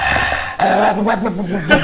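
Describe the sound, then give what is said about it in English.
A dog growls and barks in rough, loud bursts, with throaty low rumbling broken by a few higher yelping peaks. “Actually, the dog was interviewed, and he had something to... He had a quick soundbite to say.”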